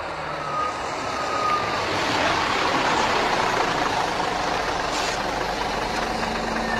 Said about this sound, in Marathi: चला चला चला, बस आली आहे, चला भेटू।